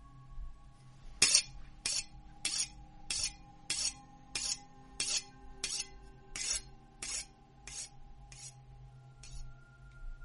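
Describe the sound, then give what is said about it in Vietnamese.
Rasping strokes of a knife being sharpened on a stone, a steady series of bright, gritty scraping passes repeating roughly every half second, fairly loud and even, with no talk. “nó mài con dao vào cục đá nghe đến rợn cả người.”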